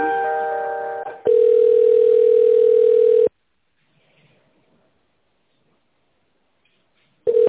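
Telephone line tones while a call is being transferred: a chord-like tone for about a second, then a loud steady single tone for two seconds, silence, and a brief return of the tone at the very end.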